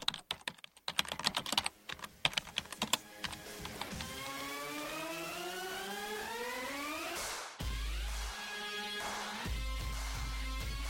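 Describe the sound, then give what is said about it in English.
Typing on a computer keyboard opens with a burst of quick, uneven key clicks, followed by a sustained humming tone with faint mechanical ticking underneath. “throughout this piece, I typed 150 words.”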